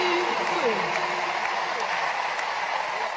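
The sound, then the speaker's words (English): Sustained crowd applause follows a played speech, a dense, even wash of clapping that holds steady throughout, with a faint voice-like tone drifting beneath it. “You hear the claps afterwards. They thought it was amazing, wonderful.”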